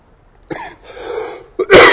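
A person coughs: a few harsh bursts, with a rough breathy stretch in the middle and the last burst loudest.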